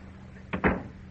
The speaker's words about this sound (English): Kindly close the door quietly behind you.